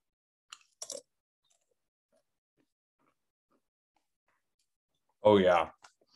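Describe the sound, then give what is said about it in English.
A sweet spicy mango-flavoured chip is crunched in a few short, crisp bursts, followed by a long silence and a brief voiced murmur near the end. “Open up the bag. Give a smell test. Ooh, I can smell the sweetness, the spiciness. Okay, here we go. First chip.”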